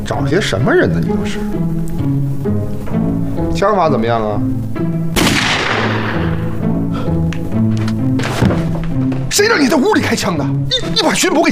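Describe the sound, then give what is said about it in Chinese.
A gunshot fired indoors gives one sharp, loud crack with a trailing decay amid talking and other sounds. “谁让你在屋里开枪的？你把巡捕给招来的？”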